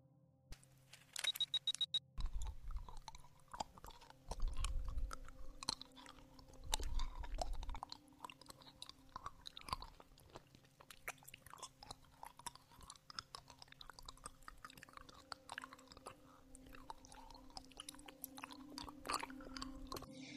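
Someone eats a lollipop with many irregular wet mouth clicks, sucks and smacks, quiet and close, over a faint steady hum, with denser bursts early on.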